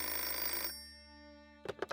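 A telephone rings with one sustained electronic ring that fades out, then three quick short bursts of ringing follow alone.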